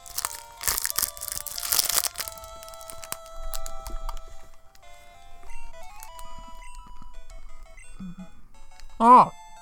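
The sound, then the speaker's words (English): Crinkling and crunching while a Snickers bar is eaten, with a burst of crisp crackle in the first couple of seconds, then quieter bites under sustained electronic game tones and beeps. “I'm eating a Snickers bar.”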